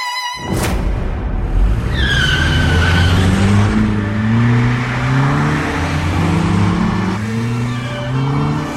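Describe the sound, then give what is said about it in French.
Tyres screech and an engine roars as a powerful car tears through a housing estate at night, spinning and cornering hard. A high squeal cuts in early over a loud, continuous engine drone whose pitch wavers and climbs. “Tout phare allumé, une puissante cylindrée déboule dans la nuit de la cité HLM. Les pneus crissent, le moteur hurle. Tête à queue, virage sur les chapeaux de roue,”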